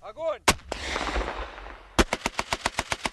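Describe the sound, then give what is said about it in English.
Soldiers fire heavy machine guns and rocket-propelled grenades at army target practice on a field outside Moscow. A couple of sharp, loud blasts with a lingering rumble are followed by a rapid machine-gun burst of many evenly spaced shots. “On a field outside Moscow, soldiers fire heavy machine guns and rocket-propelled grenades during target practice as officers shout commands.”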